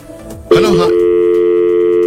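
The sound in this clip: Steady telephone tone after a call disconnects. It starts abruptly after a brief noisy burst, then holds one unbroken, even pitch at a constant loud level to the end.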